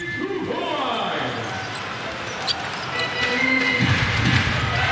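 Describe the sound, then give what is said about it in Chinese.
A basketball is tossed casually off the backboard and banked in during a game, with a brief ball impact standing out against steady crowd noise while a commentator talks over it. “比较随意的往篮板上一扔啊，正面的打板投进。”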